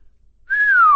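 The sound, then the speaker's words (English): A person whistles a single loud note after a moment of quiet. The pitch rises slightly, then glides steadily downward. “Said the jinn, whistling.”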